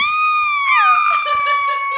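A woman screams while riding in a sidecar: a long, sustained, high-pitched scream that wavers, dips lower partway through and then holds steady to the end.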